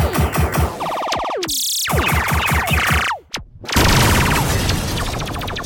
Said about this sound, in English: Get those turrets active! We need this information. All weapons, open fire!